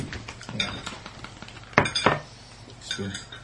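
A fork clinks against a dish while thick cream is eaten from it: a few light taps, then two sharper, louder clinks close together, followed by softer scraping and clinking.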